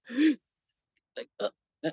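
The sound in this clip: A voice imitates the gasp of someone unable to breathe during heart cramps: one long, strained, voiced inhale, then three short breathy gasps, each set apart by silence.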